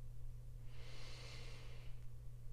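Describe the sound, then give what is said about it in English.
A deep inhale during a guided breathing exercise: a soft, airy rush lasting over a second, faint over a low steady hum. “let's go ahead and inhale.”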